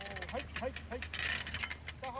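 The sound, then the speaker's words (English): A haymaking farm machine passes by, giving a steady mechanical rattle with recurring short squeaks, fairly faint and continuous throughout. “No, I'm recording the sound of the machine going by”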